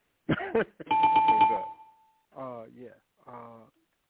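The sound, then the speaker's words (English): A bell sound effect rings out as one sustained, bright ding that slowly fades, with brief voices just before and after it. “I'm going to throw the bell on that one. Sorry. Can throw the bell.”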